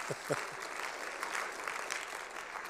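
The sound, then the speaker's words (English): Church audience applause for a guest speaker: steady, even clapping from a crowd that holds at a fairly constant level throughout, with a few low thumps at the very start. “Give yourself a hand.”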